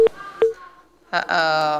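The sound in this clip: A dropped telephone call sounds with disconnection tones: two short, sharp beeps, a brief gap, then a louder sustained tone to the end.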